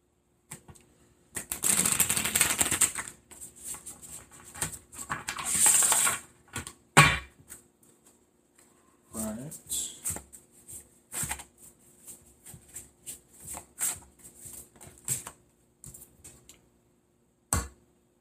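A deck of oracle cards is shuffled and cut, making many irregular bursts of papery riffling, flicking and soft slaps. The sounds are fairly faint, separated by short quiet gaps, with no talking.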